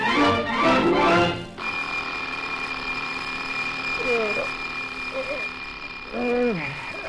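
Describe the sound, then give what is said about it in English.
A mechanical alarm clock rings in a steady, continuous high rattle that starts after voices at the opening and keeps going, with a man speaking over it near the end. “Darn that clock. What time is it?”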